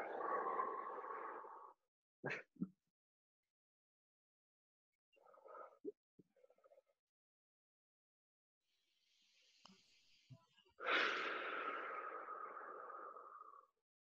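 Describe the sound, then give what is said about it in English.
Slow breathing in and out during a guided chakra meditation: two long, airy breaths, one at the start and one near the end, with near silence and a few faint, brief sounds between them. “And let's breathe in and out.”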